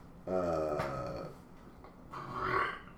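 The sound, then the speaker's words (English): A man lets out a long, low, croaking burp during a casual conversation recording. The rough, guttural sound lasts about a second and is followed by a shorter, breathier noise, with no talking over it. “Are you talking about the spoiler or his burp? No. His burp in my dead air.”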